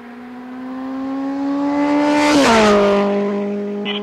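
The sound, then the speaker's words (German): A stolen motorcycle speeds away from a bank robbery through a street in Kingston. Its loud, steady engine whine climbs gradually in pitch and swells, then drops sharply in pitch as it rushes past and carries on slightly fainter. “Sie berennen mit vermutlich gestohlenem Motorrad auf der Flucht Queen Street in nordwestliche Richtung.”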